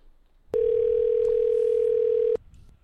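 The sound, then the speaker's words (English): Telephone dial tone heard while trying to call a hotel room: one steady, pure, mid-pitched tone held for about two seconds. A click marks its start and end over a faint background hiss. “let's try this again, because I want to see if we can actually dial into a room.”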